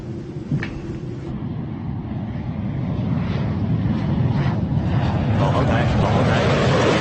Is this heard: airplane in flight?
yes